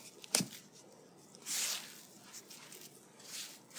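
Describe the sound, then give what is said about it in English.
Hands pat out wet dough on a floured surface, giving soft, damp pats and squishes with one sharper slap early on, then faint irregular patting that stays quiet throughout. “Just going to kind of pat it out a little bit. It's a little wet, so I'm not worrying about the amount of flour.”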